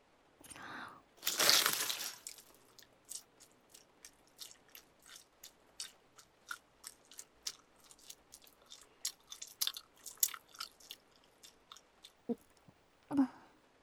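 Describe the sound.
Loud, crunchy chewing, with a heavy crunching bite near the start. Many quick, steady bites and mastication sounds follow, repeating rhythmically with no voices.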